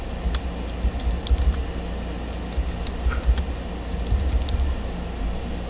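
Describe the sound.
Typing on a computer keyboard: light, irregular keystroke clicks come in short clusters and scattered taps above a steady low rumble.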